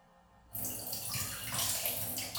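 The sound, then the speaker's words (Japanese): Water rushes and splashes as urine is flushed away from a plastic bottle, starting abruptly after half a second of near silence and then holding a loud, steady wash until the end. “今回こんな感じでペットボトルにおしっこしていきました。じゃあ流しますね。”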